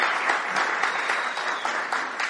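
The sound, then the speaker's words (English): Audience applause at a church gathering, with steady, dense clapping from many hands that continues evenly through the whole clip. “It's so we can give Andy a round of applause for being the first to donate.”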